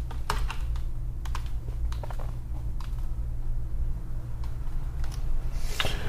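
Typing on a computer keyboard: many irregular keystroke clicks, some in quick bursts and others spaced apart, heard alone over a steady low hum with no voices.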